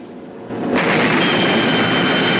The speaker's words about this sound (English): The torpedo approaches. Bunin stares. The Maxim Gorky is hit amidships and engulfed by flames.